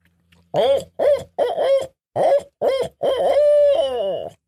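A hunter imitates a barred-owl-style eight-note hoot as a locator call to draw a gobble from a turkey. Loud, hollow hoots come in a rhythmic sequence of about eight, with the final note drawn out and trailing down.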